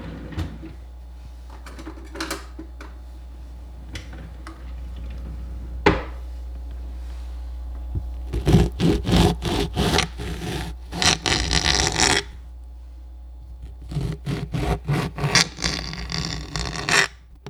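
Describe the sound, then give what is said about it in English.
Scraping and cutting as an orange is sliced and Nutella is spread on toast: many short, fairly quiet scrapes and knocks in irregular bursts, with no voices. “But what's a good coffee without a sliced orange and a couple of Nutella toasts?”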